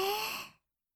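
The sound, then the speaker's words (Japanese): One breathy exhale during a slow breathing exercise, fairly loud, fading out after about half a second and leaving silence. No voices. “焦らず、ゆっくりと吐いてくださいね。”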